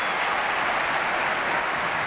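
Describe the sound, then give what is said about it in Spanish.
A football stadium crowd applauds the home team after conceding a goal, a dense, unbroken wash of clapping and crowd noise holding steady across the short stretch. “Ahora reacciona Mestalla y aplaude al equipo.”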